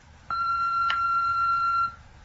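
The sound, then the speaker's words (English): Answering machine beep: a single steady, high-pitched electronic tone lasting about a second and a half, alone with no voices. “please record a message after the tone.”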